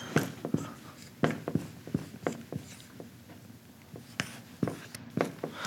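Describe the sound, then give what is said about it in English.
Writing on a board during a lecture: many short, scratchy strokes in an irregular rhythm, moderately loud and heard on their own with no talk. “I'm going to write this up here just for the sake of illustration.”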